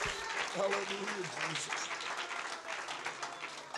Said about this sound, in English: Clap your hands to the Lord and give him praise today.